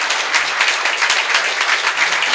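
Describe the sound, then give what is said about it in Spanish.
Applause for children who took part in recording songs for an album, a dense, steady patter of many hands clapping without a break for the whole stretch. “Así que fuerte el aplauso.”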